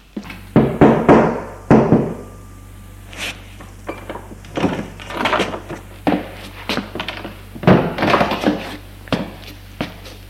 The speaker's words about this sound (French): Il veut frapper à sa chambre.